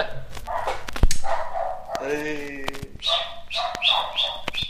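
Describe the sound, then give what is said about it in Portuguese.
Dog barking, several sharp, loud barks breaking in among people talking, with a busy stretch of voices throughout. “Ai, cara, esse cachorro tá foda.”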